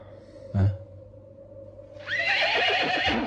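A horse neighs in a long, high, wavering whinny that fills the latter half, preceded by a brief low thud over a faint hum.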